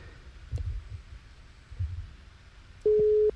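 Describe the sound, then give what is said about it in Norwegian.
A telephone ringing tone on an outgoing call to a game contestant: one steady, low electronic tone that starts near the end, after a quiet stretch with a few soft thumps. “Der får tre ring. Har dere ikke svart, så legger vi på.”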